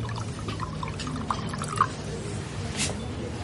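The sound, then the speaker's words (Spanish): Wine poured into a glass by a waiter: a faint trickle with a few soft drips over a low, steady hum. “El camarero le sirve vino.”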